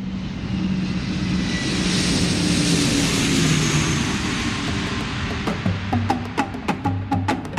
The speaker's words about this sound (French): Le 1er août 1972, le DC-8 atterrit à l'aéroport d'Alger.